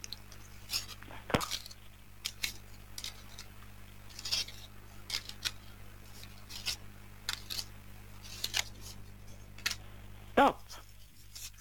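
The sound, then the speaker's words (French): Playing cards are laid down one after another on a table, giving many quiet, crisp snaps and soft taps at an irregular pace over a low steady hum, with one slightly louder flick near the end. “Et vous me direz un stop quand vous le désirez. comme ça vous aurez votre message. Alors, je dépose les cartes.”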